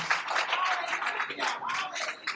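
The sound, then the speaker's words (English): A church audience claps hands for the Lord, uneven bursts of clapping mixed with raised voices and calls, fairly quiet overall. “Come on, give the Lord a hand clap.”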